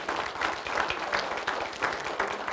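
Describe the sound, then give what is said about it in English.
A church audience claps in soft, continuous applause, with many hands patting in an uneven rhythm at low volume. “you guys always clap before we vote.”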